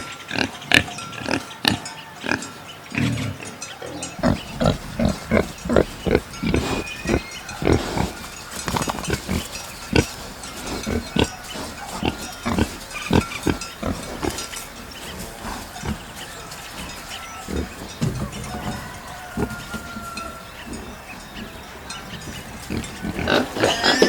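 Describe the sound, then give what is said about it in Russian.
Pig grunting and oinking, with many short, loud bursts in an irregular rhythm that continue throughout. “Свинья. Свинья.”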